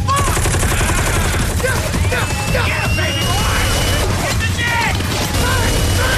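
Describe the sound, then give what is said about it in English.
Continuous automatic gunfire sprayed in a circle around a room, a loud, dense clatter of rapid shots and mechanical rattling that runs unbroken through the whole stretch, mixed with other tonal sounds. “Baby Boy fires in a continuous circle, collecting corpses as he aims around the room. Spent shot cases form a pile around his feet.”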